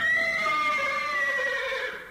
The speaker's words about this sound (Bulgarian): Под себе си виждам коне.